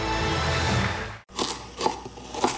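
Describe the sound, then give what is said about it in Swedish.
Crisp crunching of a McDonald's McCrispy chicken sandwich being bitten: a noisy opening, a brief gap, then a few sharp, crackly bites that stand out clearly. “Upptäck det vackra ljudet av McCrispy Company för endast 89 kronor. En riktigt krispig upplevelse för ett ännu godare McDonalds.”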